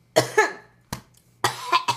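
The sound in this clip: A run of short, dry coughs from a tickle in the throat, clustered in quick bursts with brief pauses between them, fairly loud and without talk.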